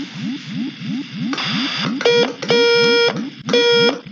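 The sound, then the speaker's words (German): Electronic beeping presented as a radio signal from aliens in a space adventure: three bright, harmonic tone bursts follow a short noisy hiss, all over a steady, pulsing low warble that repeats throughout. “Suchen Sie die richtige Frequenz, Wilson. Sie senden wirklich. Aber leider verstehe ich Ihre Sprache nicht.”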